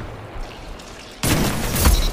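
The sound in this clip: A gunshot in the video game Destiny 2, landing a headshot, hits as one sudden loud blast partway through, then gives way to a sustained noisy rumble after a quieter lead-in.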